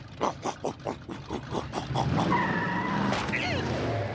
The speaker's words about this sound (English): I did it! I supercharged my riding mower!